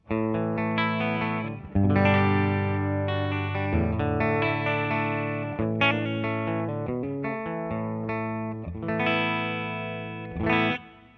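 Electric guitar clean tone from a single-coil bridge pickup, gain at about ten o'clock and bass turned all the way down, ringing through many bright strummed chords and picked notes at a steady, fairly loud level.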